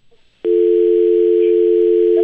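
Telephone dial tone during a call attempt that fails to connect. A steady, loud, unbroken tone starts abruptly after a few brief, faint sounds and holds to the end.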